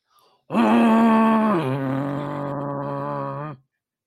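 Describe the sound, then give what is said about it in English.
A voice imitates the mechanical man from the Channel 4 ident, holding a long, loud droning groan for about three seconds that steps down in pitch partway and then sustains before cutting off. “at the end of them, he can sort of create a sound that goes across the green and pleasant land of England. And it sounds like this.”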